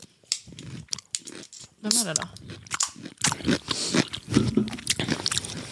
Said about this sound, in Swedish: Jag vill höra dig smaska. Åh gud vad äckligt.